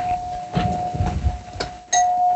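A doorbell rings with a sustained, steady chime tone over a muffled rumbling background, then a fresh, brighter strike of the bell near the end.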